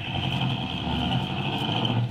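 A car driving slowly through a park: a smooth, steady engine hum with a constant drone and no change in speed, heard alone without voices.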